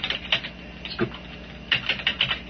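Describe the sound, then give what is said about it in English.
Typing on a computer keyboard gives quick runs of light, crisp key clicks in irregular bursts with a short lull in between. The clicks are fairly soft, and no voices are heard. “so I'm going to type self-voicing.”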